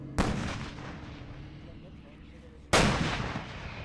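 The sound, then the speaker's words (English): Two single shots from a self-propelled howitzer during Bundeswehr target practice at a base in the rain: two sharp, loud booms about two and a half seconds apart, each trailing into a long rumbling decay. “After two single shots, a Bundeswehr press officer says, that's it, target practice is over.”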